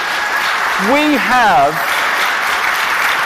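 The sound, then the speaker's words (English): Audience applause at a church ministry fair, honouring volunteers who look after the property: steady, dense clapping throughout, with a short rising-and-falling vocal whoop in the middle. “Let's give those people a round of applause, right?”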